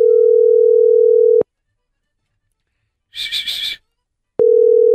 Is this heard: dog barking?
no

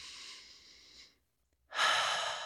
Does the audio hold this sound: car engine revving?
no

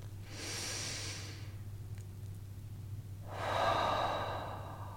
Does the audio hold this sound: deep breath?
yes

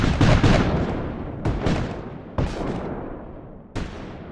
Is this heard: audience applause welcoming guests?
no

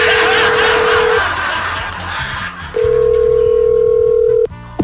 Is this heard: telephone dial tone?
yes

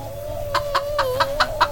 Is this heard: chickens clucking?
yes

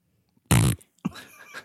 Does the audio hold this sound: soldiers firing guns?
no

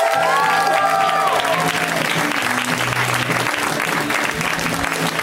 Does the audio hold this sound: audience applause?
yes

